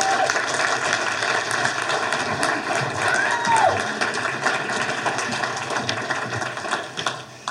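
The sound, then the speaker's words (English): Applause from a church audience as guest speakers come on stage: loud, steady clapping that runs unbroken throughout and eases slightly near the end. “Let's give them a hand as they come.”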